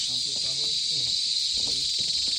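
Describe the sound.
A cicada chirrs in the jungle as a continuous, shrill high-pitched drone that does not let up, with people talking quietly beneath it.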